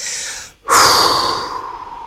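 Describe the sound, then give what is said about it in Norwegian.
Slow breathing in and out during a calm mindfulness moment: a soft breath, a brief pause, then a louder, sustained breath that slowly fades. “jeg puster inn, jeg puster ut”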